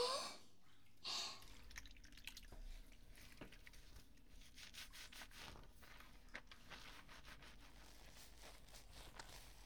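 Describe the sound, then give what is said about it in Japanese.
Shampoo is lathered on hair: soft, faint rubbing and squishing strokes repeat many times in a steady scrubbing rhythm, with a brief louder burst near the start. “では次はシャンプーを。はい、あわあわ失礼しますね。”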